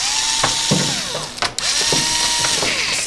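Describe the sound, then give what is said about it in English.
Worker driving screws while assembling parts of a rugged industrial computer: a steady mechanical whir with ratcheting clicks and brief tool bursts that continue throughout without pause. “That's the sound of a worker at Logic Supply screwing together parts on an industrial computer.”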